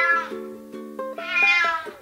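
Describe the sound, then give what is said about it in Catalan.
A cat meows several times, drawn-out nasal cries rich in harmonics, the last one longer and higher, with nothing else heard. “Presumit i confiat pel camí, es va acostar un gat.”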